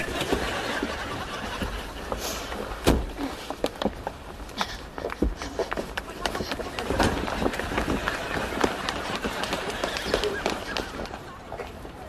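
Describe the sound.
People who have just jumped out of a car run off in a steady, rapid patter of footsteps that continues throughout, with faint voices mixed in.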